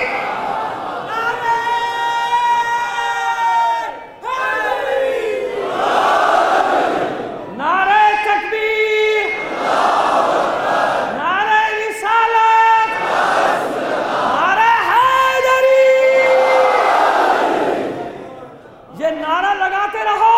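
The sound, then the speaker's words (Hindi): A crowd at a Hindi-Urdu rally chanting the slogan 'Ali Ali', many voices rising together in loud, regular bursts every couple of seconds. Each burst swells and falls in a steady rhythm that runs throughout. “ये नारा लगाते रहो। अली अली का नारा लगाते रहोगे”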